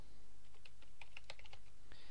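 Typing on a computer keyboard as a search term is entered: a quick, uneven run of light key clicks, fairly faint, over a steady low background hum.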